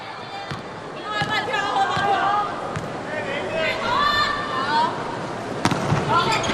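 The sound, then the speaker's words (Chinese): A volleyball serve struck by the Chinese team in an indoor match against Chinese Taipei. A few sharp slapping thumps stand out over arena noise while commentators talk throughout. “中国队换上杨舒明来发球。”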